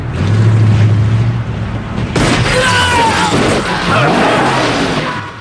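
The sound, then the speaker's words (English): A large black pickup truck pulls up behind a police car, its engine a loud, rumbling roar that shifts abruptly midway into a brighter, more agitated mix of motor noise and sliding tones. “A large black pickup truck draws up behind the cop car.”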